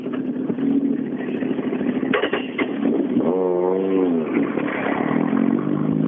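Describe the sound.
A blue race car's engine drives off, a rough mechanical drone whose revs climb and then ease off midway, with a brief clattering burst just before.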